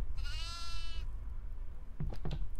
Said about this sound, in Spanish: ¡Ay, una cabra! ¡Está pasando una cabra!